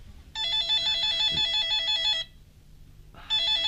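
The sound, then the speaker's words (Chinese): A telephone rings on an office desk in a manager's room: a warbling electronic ring lasting about two seconds, a brief pause, then the ring starting again, with no talk. “他刚走进经理室，突然办公桌上的电话铃响”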